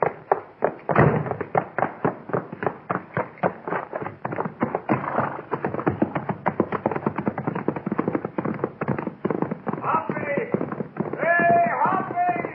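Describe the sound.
Horses gallop, one of them named Topper, in a fast, steady run of heavy hoofbeats that thud loudly and continuously from start to finish.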